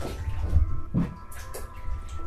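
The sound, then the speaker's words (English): Water sloshing as a person steps into a bathtub filled about calf-deep, a few gentle splashes and swirls, fairly quiet and without talk. “And I'm about to get in the tub.”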